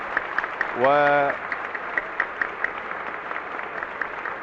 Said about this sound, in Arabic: ويقابل جمهور الحاضرين هنا كوكب الشرق بهذه العاصفة من التصفيق وهذه التحية